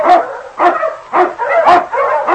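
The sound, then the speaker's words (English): Husky sled dogs bark loudly in about five rough, evenly spaced bursts, with no talk. “On King! On your Huskies!”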